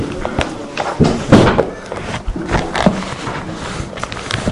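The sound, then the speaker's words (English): Several dull thuds and knocks from a chair being dropped, the heaviest impacts bunched near the start, set against a busy, noisy background of shuffling and scraping. “See, I'm dropping my mom's chair.”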